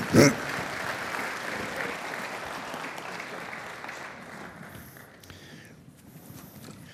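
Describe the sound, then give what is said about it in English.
An audience applauds to welcome a guest onto the stage. A sharp burst at the start gives way to steady clapping that gradually thins and fades over several seconds. “Why don't you, she's scared, so why don't you just give her a hand and welcome Debbie. Come on out here.”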